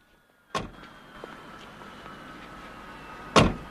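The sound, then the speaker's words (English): The rear door of a hearse is shut with a solid thud, followed near the end by a second, louder door thud, with a faint low hum in between. “One of the undertakers shuts the rear door, then gets in the front.”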